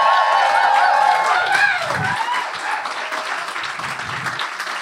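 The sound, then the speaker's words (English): An audience claps and cheers, a sustained wash of applause that fades slightly as it goes on, with voices talking over it. “Clap again. Clap again!”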